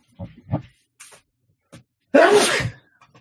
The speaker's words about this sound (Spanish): Voy a estornudar.